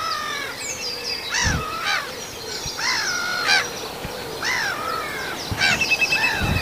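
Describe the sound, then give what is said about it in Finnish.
A black-headed gull flies over, giving several harsh, rasping calls at irregular intervals. No voices are heard. “Mutta nyt menee naurulokki tässä yli.”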